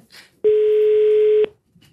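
Telephone tone while a call is dialed: one steady, clear beep lasting about a second, standing alone between brief stretches of faint noise.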